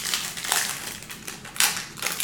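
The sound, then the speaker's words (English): Crinkling and crushing wrapper noise as a 1991 pack of trading cards is torn open. A few short, papery bursts come in an uneven rhythm, with no talk over them. “All right, 1991 OPG pack. Let's go ahead and open it.”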